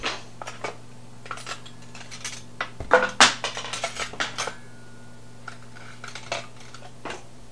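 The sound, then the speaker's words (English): A metal spoon is pulled out of a dishwasher with clinks and rattles among the dishes: a burst of sharp clatters in the middle, surrounded by lighter scattered taps. “You got that spoon. You got it right out of the dishwasher.”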